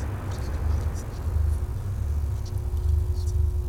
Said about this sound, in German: Das Gewitter kommt näher. Das Haus wird zerfallen unter dem Donner.